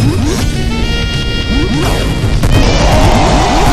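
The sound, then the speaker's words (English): Video game enemy dying and spraying coins: loud crashing, clanking effects with quick rising chirps layered over constant dense background music, the clatter thickening toward the end. “Oh, it's dying. It's spraying coins everywhere.”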